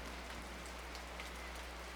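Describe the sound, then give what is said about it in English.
Steady rain falls in a dense, even hiss of countless drops, continuous and unchanging throughout, with a low hum running beneath it. “And the rain relaxes you. Rain relaxes you.”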